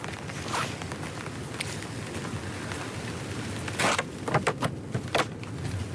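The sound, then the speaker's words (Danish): Footsteps walk out of a forest park: soft, faint steps over a rustling background, with a few sharper, louder footfalls toward the end. “Så går vi ud af dyrehaven. Godnat, lille skov.”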